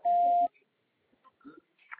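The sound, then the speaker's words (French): A single steady answering-machine beep before a message is recorded: one mid-pitched tone lasting about half a second, followed by a few faint, scattered noises. “C'est à vous après le bip.”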